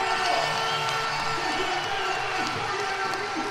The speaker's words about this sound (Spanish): Ahí está el enorme público de Pumarín.